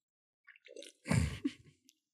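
Someone chews apple crisp: a few faint, moist crunching and squishing bites, the loudest in a short cluster midway, with quiet gaps between them.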